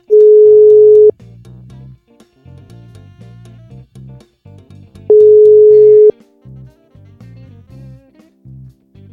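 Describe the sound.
A steady telephone tone sounds while a call is placed, a plain mid-pitched beep lasting about a second that repeats once roughly four seconds later. Softer tonal background sounds fill the gaps between the tones.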